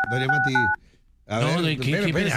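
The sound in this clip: Telephone keypad dialing tones beep briefly under talking voices, then a short near-silent gap, then voices again.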